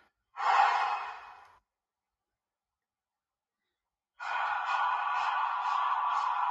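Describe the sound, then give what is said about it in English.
A long, breathy exhale, then after a pause a single steady inhale through an asthma inhaler, with about six quick, evenly spaced spray pumps pulsing through the breath. Soft and close, with no talking. “That was 6 pumps on 1 breath.”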